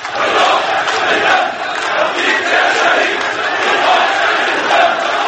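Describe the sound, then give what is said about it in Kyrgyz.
Loud crowd chanting from some 20,000 protesters at a funeral in Syria for nine people killed by security forces, a dense, continuous roar of many voices shouting together with a steady, pulsing rhythm. “Сириянын коопсуздук күчтөрүнүн колунан курман болгон 9 адамдын бейшембиде болгон таажасына 20 миң чамалуу адам чогулду. Активисттер Кудай, Сирия, эркиндик деп кыйкырып турушту.”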